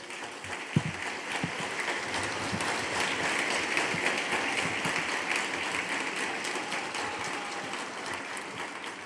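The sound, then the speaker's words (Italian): A crowd applauds the Pope's Angelus address at Castel Gandolfo with sustained, dense clapping that holds at a fairly steady level for the whole stretch. “È interrotto più volte dagli applausi della folla, il Papa da Castel Gandolfo si rivolge ai governanti del mondo.”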